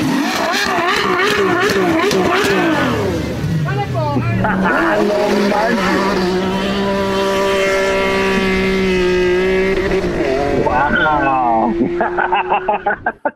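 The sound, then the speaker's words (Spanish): A car engine, treated with half a bottle of fuel additive, starts and revs loudly. Its pitch climbs and falls through several revs, holds at a high drone, then cuts off, with voices shouting over it. “ya se, ahí sí arrancó bien chido Vicente Fox. Te estoy diciendo que arranca bonito”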